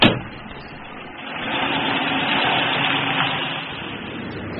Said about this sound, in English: Larry 和李华开车去海边。